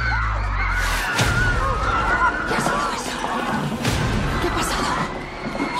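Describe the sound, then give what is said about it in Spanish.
Sharp gunshot cracks ring out over a chaotic, noisy scene, with a few loud bangs standing out against constant commotion and raised voices. “Pegado un tiro a ese. Le han dado toda la cabeza.”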